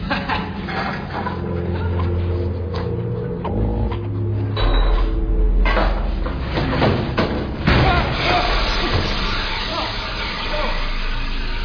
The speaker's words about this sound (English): What happened? All I did was open up the cupboard.